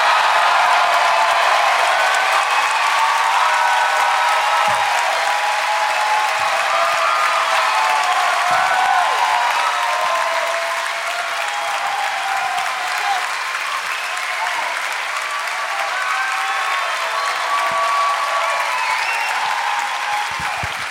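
Audience applause welcoming three guests to the stage at a live show in Boston: a dense, steady wash of clapping that lasts the whole stretch, easing slightly partway through.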